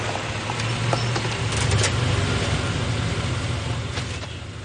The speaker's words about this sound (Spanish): Más tarde su coche atraviesa un campo y llega a una cabaña donde un guardia lo espera.